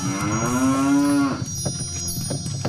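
An ox lows as it hauls a hundred carts: a single long, deep moo lasting over a second, followed by a few faint, scattered knocks.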